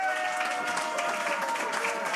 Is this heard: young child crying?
no